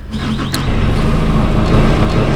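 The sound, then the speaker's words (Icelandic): A forklift engine runs while a pallet of barley is loaded onto a truck. It makes a steady, loud, low diesel-like rumble that holds an even level throughout, with no voices. “Það setur hann lyftarann í gang til að skjóta brettinu upp í bílinn”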